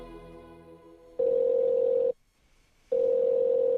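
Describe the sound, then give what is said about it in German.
A telephone dial tone while placing a call to Pitcairn Island: a steady, single-pitched electronic tone sounds for about a second, cuts out briefly, then resumes after a low background hum. “Anruf auf Pitcairn.”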